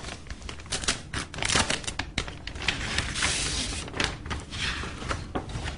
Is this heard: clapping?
no